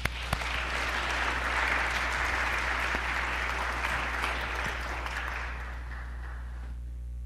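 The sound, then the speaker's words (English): Audience applause welcoming a speaker to a book talk: continuous, even clapping over a low steady hum, holding level for several seconds before thinning out and stopping near the end. “And so if you could put your hands together to welcome Dan Efron.”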